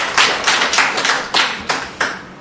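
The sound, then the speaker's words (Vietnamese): A church audience claps on the feast of Saint Luke to honor those named after him. The claps are sharp and evenly spaced, landing in unison as a brisk, rhythmic run, with no voices. “Xin một tràng hoa tay để chúc mừng những ai mang thánh hiệu là Luca.”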